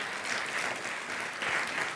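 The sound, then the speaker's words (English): Round of applause from an audience greeting two people back from a trip to Zimbabwe: dense, steady clapping without voices, holding an even level for two seconds. “Give them a round of applause.”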